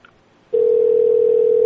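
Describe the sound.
A telephone dial tone starts abruptly after a short quiet stretch and holds as one loud, steady, unbroken pitch.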